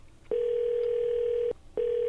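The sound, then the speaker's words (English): A call is being placed and the telephone line rings back with a steady single-pitched tone lasting about a second, then a short gap and a second tone that is cut off. “That's no one's answering the phone.”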